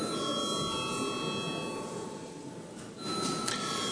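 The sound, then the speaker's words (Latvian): A bell rings in the Latvian parliament before a vote: a steady, continuous high ringing tone that holds at an even level throughout, dipping briefly near the end before resuming. “Paldies, lūdzu zvanu.”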